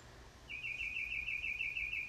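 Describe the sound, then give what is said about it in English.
A bird sings a steady, high warbling phrase of rapid repeated notes that begins about half a second in and continues to the end over a low hum. “y'all hear that bird? Isn't that just beautiful?”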